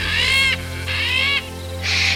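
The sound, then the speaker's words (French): A parrot singing cheerfully as it flutters around: three drawn-out, bright whistled notes of steady pitch, each about half a second long with short gaps between them, over a low constant hum. “Le perroquet voleta autour d'Ishiloc en chantant gaiement.”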